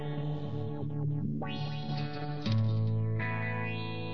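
Reverb audio effect applied to sustained, buzzy harmonic tones that step between pitches, with smeared, distorted tails and a sudden louder section midway; no voices.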